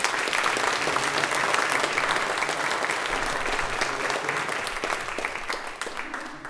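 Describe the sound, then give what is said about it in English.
An audience at Salem Reformed Church applauds to welcome new church members. The dense, steady clapping keeps going throughout and eases slightly toward the end. “Welcome. Let's give them a hand.”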